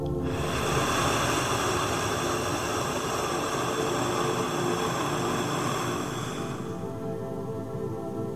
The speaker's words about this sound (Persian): لطفاً به تنفس من دقت کنید. عمل دم و بازدم